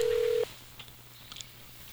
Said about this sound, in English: Dialing.